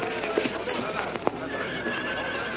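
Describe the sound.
Horses neigh and hooves clop as riders dismount beside a cliff near a trail, with a few sharp whinnies and scattered hoof thuds rising out of a steady busy background under talk.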